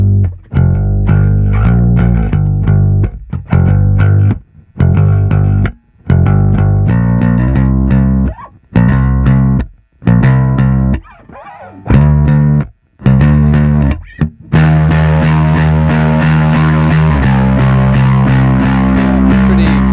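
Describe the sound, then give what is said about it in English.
Electric guitar runs through a small Rat overdrive pedal, playing loud, distorted, stop-start chords with sharp silences between them, then breaking into a sustained, brighter and denser distorted passage. “And then I'll kick on an overdrive pedal for the chorus, and so you can hear that all difference.”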